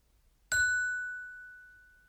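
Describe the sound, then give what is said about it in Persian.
A single bell ding signalling a turn to answer: one bright metallic strike with a clear ringing tone that slowly fades over about two seconds, alone in silence. “وقتی صدای زنگ رو میشنوید باید جواب بدید”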